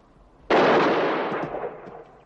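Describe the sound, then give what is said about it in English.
A single gunshot rings out with a sudden loud crack, then a broad roar that slowly fades over about a second and a half. “I'm shot. What? I'm shot.”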